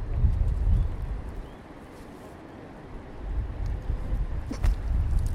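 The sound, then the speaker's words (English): Wind blowing outdoors buffets the microphone in a loud, low rumble that swells, eases briefly in the middle, then gusts back up. “Hang on, I'll wait for the wind to stop.”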